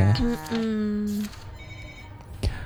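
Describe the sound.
A telephone rings with an incoming call to a radio studio: one bright, harmonic electronic ring lasting just over a second, then a steady hiss with a brief knock near the end.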